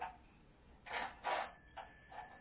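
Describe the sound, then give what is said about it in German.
A telephone ringing faintly: a few short, bright, metallic ring bursts in quick succession, rising above a soft hiss with no voices. “Da ist wieder das Telefon.”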